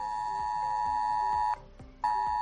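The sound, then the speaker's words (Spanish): Strident ES-Alert emergency tone sounds from a mobile phone: a piercing, steady high beep held for about one and a half seconds, a brief silent gap, then the same loud tone resumes. “Este es el sonido de S-Alert, es el sistema de alerta que recibirías en tu móvil cuando una situación es preocupante”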